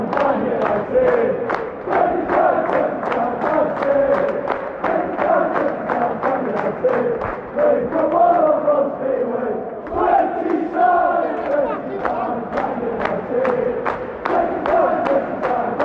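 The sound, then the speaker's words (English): Football fans cheer and chant at Old Trafford as 10,000 supporters return after 436 days. A steady roar of voices rides over many rhythmic claps or thumps that hold a regular beat for the whole stretch, with no voice standing out alone. “the noise there just gives an example of the passion of the 10,000 fans back at Old Trafford”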